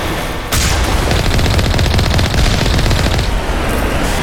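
Loud automatic gunfire from Geth enemies shooting at a rover tank in a video game. The rapid, rattling shots run almost without pause after a short opening burst.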